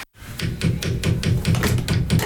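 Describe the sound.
Knocking against a device that doesn't work: many quick, sharp taps in a steady, even rhythm, fairly loud, with no talking.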